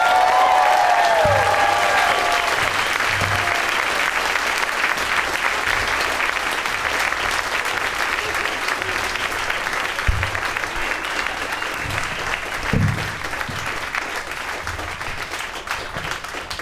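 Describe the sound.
A studio audience applauds to welcome guests onto a show, with steady, dense clapping sustained at an even level for about sixteen seconds.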